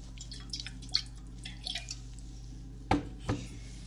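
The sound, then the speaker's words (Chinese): Alcohol is sprinkled onto a bleeding wound to disinfect it, heard as faint, soft drips and small splatters in a few scattered bursts, with two slightly louder wet hits near the end over a quiet low hum. “来，我帮你消毒，撒一下酒精。”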